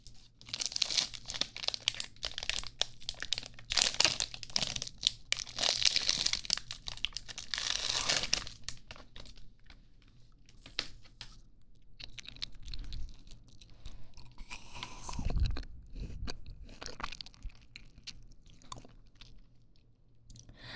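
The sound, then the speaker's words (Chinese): Crinkling of plastic wrappers as two ice pops are torn open, followed by bursts of biting and wet chewing. The wrapper rustle is dense and continuous at first, then gives way to sparser crunches and smacking bites. “老师给你买个冰棒吃，放松一下，怎么了？ 我买了两根，和你一起吃。”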